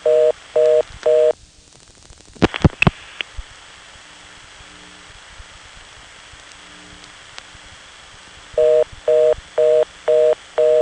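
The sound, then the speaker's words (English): Telephone reorder tone from a 4ESS switch after a dialing timeout: fast on-off beeping at the start, then a long quiet stretch with a few clicks on the line, then the rapid beeping returns. “As you can see, 4Es only give you about 5 or 6 seconds before they time out to the reorder.”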